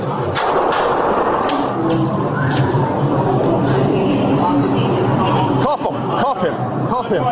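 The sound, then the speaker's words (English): Police gunfire at a man in a station: several sharp, scattered bangs cut through loud shouting and crowd chatter, with voices heard throughout. “The NYPD fired at the man.”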